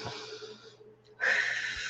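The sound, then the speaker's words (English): A slow, deep breath drawn in and let out, soft and close. Two airy rushes are separated by a short silent pause, and the second is louder and brighter. “just take a deep breath and I'll try to do it soft so it's not so loud. Okay. All right. Just take a deep breath in and out.”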